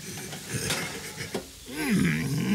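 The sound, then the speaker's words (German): A tray of cookies is taken out of an oven, giving a few brief metallic clanks and clatters at a low level. “Oh nein! Die Kekse sind fertig. Oh, die Kekse, die Kekse, die Kekse, die Kekse. Siehst du, geh doch ganz schnell. Warten ist gar nicht so schlimm. Jetzt hol die Kekse aus dem Ofen.”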